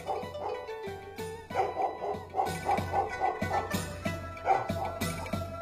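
An excited grey-coated dog barks over and over, jumping about like a cheering fan. The barks are sharp and come in a fairly steady rhythm, with no talk over them.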